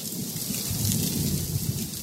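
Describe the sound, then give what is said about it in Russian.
Heavy pouring rain roars steadily and loudly throughout, a dense, unbroken hiss with a low rumble beneath it and no voices. “Наступает тишина, нарушаемая только воем ветра и гулом проливного дождя.”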